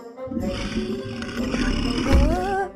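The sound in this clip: A T. rex roaring in a children's cartoon: a growling, rumbling roar with wavering tones, ending in a heavier low burst.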